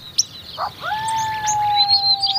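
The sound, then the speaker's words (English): Early spring birdsong at a desert spring oasis in Death Valley: a few brief high chirps, then a long, clear, steady whistled note that carries to the end, with fainter high calls around it. “The early spring bird songs at this desert oasis are broken up by the call of a lone”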